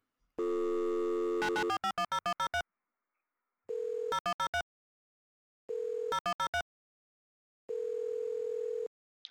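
A telephone being dialed: a steady dial tone, then a rapid run of dialing beeps. Tone and beeps repeat in four separate bursts with silence between them.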